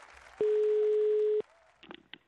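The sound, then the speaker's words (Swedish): A telephone tone sounds as a call is placed: a single steady, even-pitched tone lasting about a second. A few faint, brief clicks follow. “Vi ringer upp henne på studiet.”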